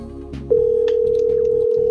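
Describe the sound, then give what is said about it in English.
A telephone ringing on a live call line: a single steady electronic tone starts about a quarter of the way in and holds unbroken to the end over a low background hum. “The phone's ringing. That's how you know it's live.”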